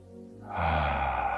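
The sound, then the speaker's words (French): A person breathing in deeply during a guided meditation: a steady, airy rush of inhaled breath that begins partway through and holds, over low sustained tones. “J'inspire.”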